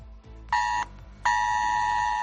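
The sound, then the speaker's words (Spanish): Mobile phones sound a US government emergency alert: a loud, harsh buzzing tone plays a short burst, pauses briefly, then returns as a longer steady blast. “Esa es la alarma que suenan sus teléfonos cuando el gobierno americano tiene que anunciar algo grave como el toque de queda”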